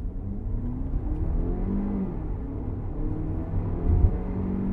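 A car with a 2-litre turbo petrol engine (150 kW, 320 Nm, all-wheel drive) drives along with a steady low engine drone and road rumble that swells slightly near the end.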